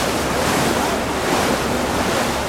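Ocean surf rushes in a continuous loud, even roar, with wind buffeting over it and no clear breaks between waves; no voices are heard.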